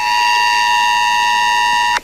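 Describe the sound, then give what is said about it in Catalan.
ES-Alert emergency tone sounding on mobile phones during a nuclear emergency drill around a nuclear power plant: a loud, harsh, steady electronic tone rich in buzzy overtones holds for about two seconds, then cuts off abruptly. “Així sonava l'alerta, la S-alert, en arribar la notificació als telèfons mòbils dels ciutadans d'esta zona.”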